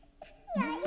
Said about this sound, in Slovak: Počujete? Počujem. Niekto plače v krovi.